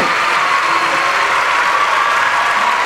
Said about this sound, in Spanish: Gracias, fuerte el aplauso para Nahuel.